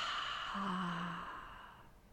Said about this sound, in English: And now into our throat, our chest, and our stomach. And exhale.